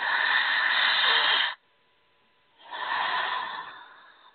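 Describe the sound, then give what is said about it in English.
Slow breathing in and out through the mouth: two long, airy, breathy rushes, each lasting over a second, separated by a short silence, with no talking. “I want you to breathe in and out of your mouth nice and slow 2 times like this.”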